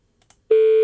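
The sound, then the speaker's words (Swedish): A telephone number is dialed to place a call: a few faint clicks, then a loud, steady telephone tone that holds without a break to the end. “Ska jag slå in numret bara?”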